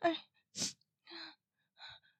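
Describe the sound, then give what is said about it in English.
Ragged, gasping breaths: four harsh, airy gulps for air, separated by short silent pauses, with nothing else heard. “My breath dragging in and out of my lungs.”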